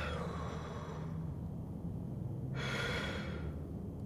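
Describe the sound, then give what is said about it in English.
Heavy human breathing as someone is coached to take slow, deep breaths: a loud, steady, breathy rush that eases into a lower, darker stretch partway through before a brighter, forceful breath returns near the end. “Slow, deep breaths.”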